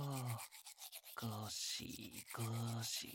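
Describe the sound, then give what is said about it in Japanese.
Soft rasping scrub of a toothbrush on a dog's front teeth, short brushing strokes alternating with brief bursts of a person talking gently. “じゃあ磨いていくからね。苦しかったらお手であげてください。前歯を”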